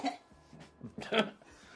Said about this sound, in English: And behind him is the coughing.